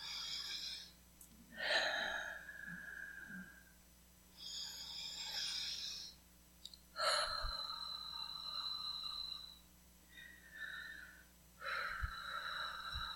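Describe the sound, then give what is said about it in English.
Deep breaths in and out during a guided morning relaxation exercise: several slow, airy inhales and exhales in a soft, steady rhythm, quiet and with no talk. “Breathe in, deep breath, and exhale. Do that again another two or three times.”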